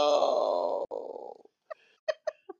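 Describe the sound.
A speaker gasps for breath after a long run-on sentence: a strained, drawn-out voiced sound trails off, and four short, sharp voiced gasps follow after a pause.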